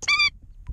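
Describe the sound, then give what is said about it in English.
An endangered Indian skimmer gives one short, harsh, nasal call. A faint rustle and a small soft sound follow in near quiet. “that's the sound of the endangered Indian skimmer bird.”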